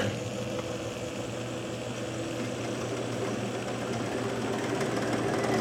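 Wool spinnery machinery runs as the rollers and a large drum turn the fibre, making a steady droning hum with faint tonal whine. The level stays constant throughout, with no talk.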